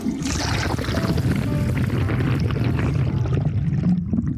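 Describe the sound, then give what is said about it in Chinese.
A toilet flushing with a basic flush design that jets water straight out from the back, giving a steady, full rush of water that holds at an even loudness for about four seconds, with no voices. “当然这款马桶用的是比较原始的冲水方案，它是直接从后面把水 喷出来。”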